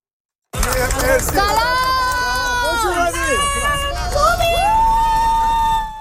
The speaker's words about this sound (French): Des partisans ont accueilli l'équipe de soccer iranienne lors de son arrivée ce matin.